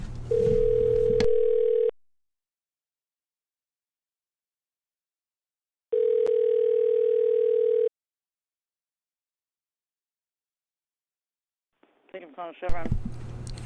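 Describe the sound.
An unanswered telephone call produces a ringback tone: two long, steady tones separated by several seconds of silence. A voice starts at the very end.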